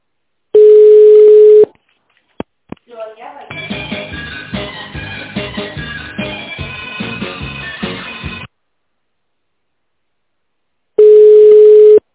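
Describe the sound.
Telephone line tones on a call that fails to connect: a long steady beep, a few sharp clicks, a stretch of busy melodic tones, then silence and a second long steady beep at the end.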